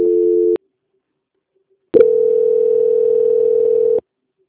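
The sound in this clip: Telephone call transfer tone after a dropped call: a short steady tone cuts off, then after a pause a second, longer steady mid-pitched tone sounds for about two seconds before stopping abruptly.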